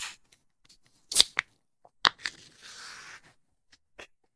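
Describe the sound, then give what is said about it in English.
Two bottles of strong 8% cider are opened and fizz over, heard as a few sharp cracks and snaps, then a short burst of foaming hiss and a faint final click, with no talk. “And we had to take a brief moment after opening those because both of the ciders were so excited about talking about the Seladrine today that they kind of spilled over, and we had to make sure none of the equipment got wet.”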